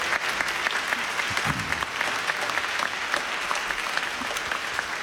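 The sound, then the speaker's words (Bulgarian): An audience at a folk concert applauds a composer with dense, even clapping that holds steady and loud for the whole stretch, with no clear voices above it. “Искам да го поздравим всички и да го аплодираме.”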